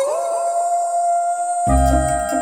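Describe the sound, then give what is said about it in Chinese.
A big wolf howls: one sustained, steady mid-pitched cry that rises slightly at its start and holds for over a second, before a louder, low, heavy burst of sound cuts in. “竟然有一只大野狼来了。”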